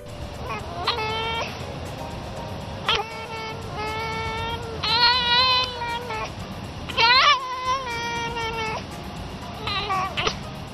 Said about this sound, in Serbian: Ovo je vlasnik jedne lisice napravio ovaj snimak dok je mazi kakve one zvuke ispušta.